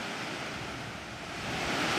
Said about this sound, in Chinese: 顺流而上，我们在三叠岭瀑布的上游看到了一个地下洞穴。令专家关注的是，这个瀑布的源头竟然直通地下。